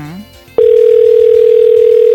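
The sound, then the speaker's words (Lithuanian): A steady telephone tone of an outgoing call, loud and unbroken at one constant pitch, cutting in after a brief voice at the start. “Nu prašom, paspaudžiau. Žiūrėkim, kieno telefonas suskambės.”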